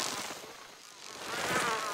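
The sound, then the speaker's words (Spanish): Many different insects buzz outdoors at night in a continuous, fluttering drone. It stays fairly faint, dips briefly, then swells again in the latter half. “Hay muchos insectos diferentes afuera esta noche.”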